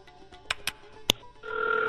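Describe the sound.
A telephone rings for an incoming call. A few sharp clicks come first, then a steady electronic ring tone begins and holds at moderate loudness until the end.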